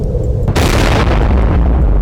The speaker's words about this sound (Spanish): La explosión liberó una energía equivalente a unas 15.000 toneladas de pólvora, desatando un viento abrasador que arrasó edificios, calles y vidas en segundos.